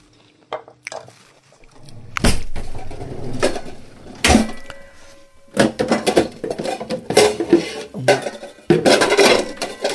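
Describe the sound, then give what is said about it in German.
Clatter of a kitchen bowl being taken out, ready for chopped ginger: a few sharp knocks and clinks of dishware, with softer handling noises between them and no voices. “Dann nehmen wir jetzt eine Schüssel.”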